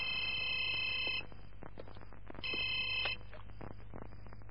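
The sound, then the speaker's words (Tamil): A telephone rings in two bursts of a bright, trilling electronic tone, the second burst shorter, fairly quiet over a low background hum, with no talk. “யாரா இந்த நேரத்துல phone பண்றது?”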